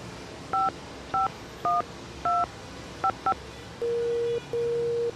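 A telephone keypad dialled to place a call: six quick electronic beeps in an uneven rhythm, followed by two long, lower, steady tones as the line rings.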